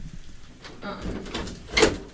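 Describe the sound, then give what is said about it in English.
A door swings shut with a short, soft thud near the end, after faint shuffling and rustling; the whole sound is quiet. “I don't think that door's supposed to close.”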